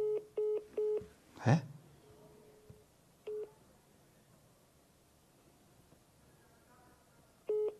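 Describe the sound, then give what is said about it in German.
Telephone keypad tones sound as a call is placed again: three quick beeps, then a single beep, then another after a long pause, over faint steady hiss with one brief rustle. “Können wir nochmal anrufen?”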